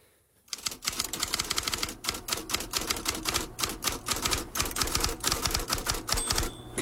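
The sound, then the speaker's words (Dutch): Typewriter typing breaks in after a brief silence: a fast, dense stream of loud mechanical keystrokes that keeps a steady, busy rhythm throughout. “Ja, dit klinkt als een toetsenbord. Mijn ouders hadden meer. Zeg maar, dit klinkt als een typemachine.”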